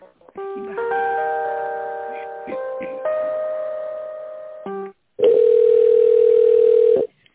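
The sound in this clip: Telephone line tones play while a call is transferred: sustained electronic chords that shift in steps, a brief gap, then one long, loud, steady single tone.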